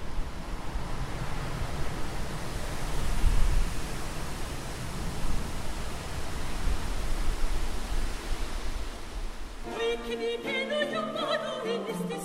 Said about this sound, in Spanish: El sonido del viento ululando entre las ramas de una chopera galáctica.